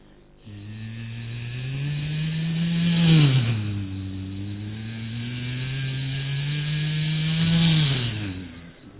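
A mixer juicer runs with a loud, steady whirring drone that dips briefly in pitch twice and then recovers, with no talk over it.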